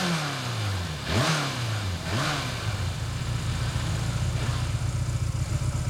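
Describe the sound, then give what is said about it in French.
A motorcycle engine revs twice in rising and falling sweeps, then settles into a steady, throaty purring idle, loud and alone. “Ah, c'est vrai qu'elle ronronne maintenant. Ah, vous voyez ce que je sais faire. Mais toutes les motos font comme ça, hein.”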